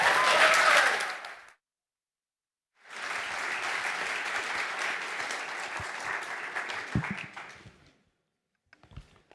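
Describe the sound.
Audience applause at a church gathering as a regional leader of a free church association is welcomed to speak. A short burst of clapping fades into silence, then a longer stretch of steady clapping dies away, followed by a few faint taps.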